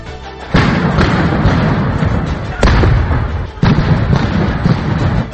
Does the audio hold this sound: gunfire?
yes

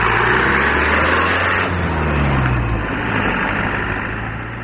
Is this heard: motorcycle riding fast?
yes

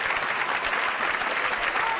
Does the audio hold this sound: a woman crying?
no

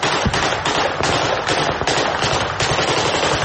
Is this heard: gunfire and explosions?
yes

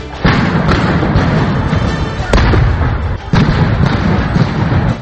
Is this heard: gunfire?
yes

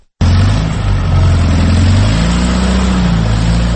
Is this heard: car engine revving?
yes

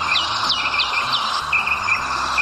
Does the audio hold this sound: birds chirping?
yes

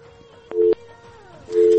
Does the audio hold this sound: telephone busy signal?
yes

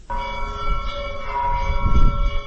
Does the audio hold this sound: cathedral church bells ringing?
yes

